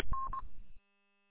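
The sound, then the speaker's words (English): A telephone number is dialed with two short keypad beeps over a low hiss, and then the sound cuts to silence. “Or wait, call me so I'll text myself because I'm out on the road.”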